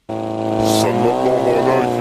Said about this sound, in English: The voice may be distorted, the message it is sending crystal clear. In the dark and with an engine running in the background, a hand writes on the side of a suicide drone.